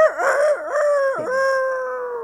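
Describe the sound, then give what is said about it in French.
A person's voice imitates a rooster crowing during haggling over a price: one loud, drawn-out wavering call lasting about two seconds, with a dip and a strained break midway. “Vous imitez le coq maintenant?”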